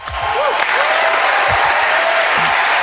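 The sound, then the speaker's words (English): Loud, dense applause from a studio audience opening an on-air show, with crowd noise mixed into the steady wash of clapping from start to finish. “Give me my applause.”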